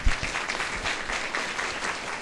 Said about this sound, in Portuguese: Queria, por favor, uma salva de palmas para eles.